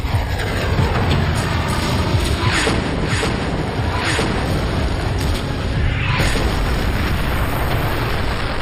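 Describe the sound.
Artillery shelling as opposing forces exchange fire, a dense, continuous low roar with a few sharper blasts rising out of it, loud throughout and without voices.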